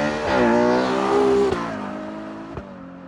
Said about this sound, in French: Ferrari 812 UTS.